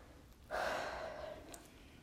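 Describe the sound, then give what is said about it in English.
A single sharp, gasp-like intake of breath from someone catching their breath after eating, loud at onset and trailing off over about a second, heard alone without talk. “I feel like I like just ate, so I like have to catch my breath when I'm talking.”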